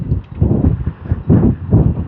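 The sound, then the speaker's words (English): Wind gusts at the leading edge of a passing weather front buffet the microphone in loud, low, rumbling surges. Several pulses swell and ease in quick succession. “Oh, that wind is. It's the gust front from whatever this front is that's moving through.”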